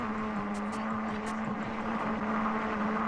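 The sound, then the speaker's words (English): A car drives over grooved melody road in Japan, built so tires play a pop song tune. A steady tonal hum rings out over constant engine and road rumble. “The engineers arrange the grooves in the road so motorist cars would make sounds similar to a Japanese pop song.”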